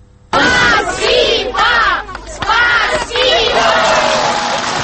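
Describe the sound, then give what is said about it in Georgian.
A crowd in Tskhinvali cheers and claps to welcome the visiting Russian president: loud, sustained shouting in waves with a few sharp claps. “აი ასე ტაშითა და შეძახილებით დახვდნენ თვითაღიარებული რესპუბლიკის მოქალაქეები რამდენიმე თვის წინ ცხინვალში ჩასულ რუსეთის პრეზიდენტს.”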